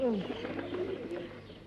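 Pigeons cooing in a steady stream of soft, low warbling calls, with a few short descending chirps at the start, moderately quiet and continuous throughout.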